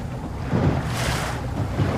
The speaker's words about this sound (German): Jürgen Blütgen sitzt in einem kleinen Boot, nimmt Kurs auf seinen ehemaligen Dienstort.